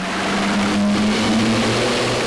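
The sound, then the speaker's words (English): A big boat passes at sea, heard as a loud, steady engine drone with a constant low hum running through it. “That's the sound of a big boat passing.”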